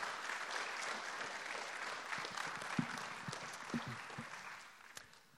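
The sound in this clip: A church audience applauds to welcome a guest speaker. The clapping is soft and steady, with a few sharper claps standing out, and fades away in the last second.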